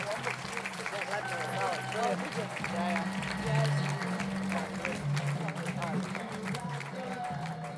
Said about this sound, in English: Please put your hands together for Eddie Izzard!